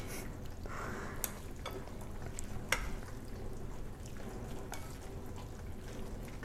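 Spices such as cumin and turmeric are stirred in a pan for creamy noodles, giving a soft, steady sizzling hiss broken by a few faint scraping clicks.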